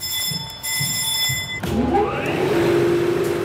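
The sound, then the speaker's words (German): A wool-making machine over 70 years old, working sheep's wool, starts up. A thin steady whine gives way midway to a motor kicking in, with a rising hum over a low mechanical rumble that carries on to the end. “Es rumpelt, es klackert, Zahnräder greifen ineinander. Langsam setzt sich Walze für Walze in Bewegung.”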